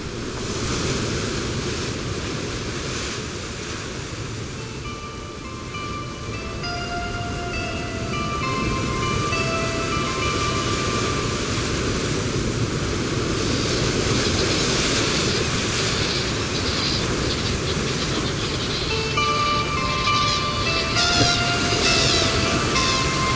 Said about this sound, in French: Mais auparavant, nous retournons un peu avec nos oiseaux, avec nos bruits de mer, avec les bruits du vent.